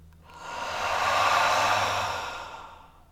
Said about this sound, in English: Nice, full, brisk inhale through the nose, and then release.